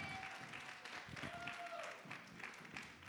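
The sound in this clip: Church audience applause welcoming a speaker, a low, steady wash of clapping from a crowd with a faint tone running beneath it.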